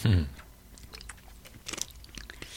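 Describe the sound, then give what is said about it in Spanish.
A person drinking water makes small wet sips and gulps with soft mouth clicks. The sounds are faint and irregular and scattered across a couple of seconds. “Perdón que voy a beber agua.”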